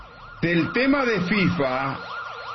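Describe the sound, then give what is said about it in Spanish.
A siren sound effect with steady, repeating rise-and-fall wails throughout and a louder warbling tone layered over the middle. “Si puede poner sirena”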